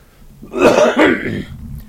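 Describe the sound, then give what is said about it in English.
Throat clearing and a cough, one fairly loud, rough burst in two close pulses that rasps and then fades, heard alone with no talk. “Only need to cough whenever I talk. So maybe if I quit talking, I'll quit coughing.”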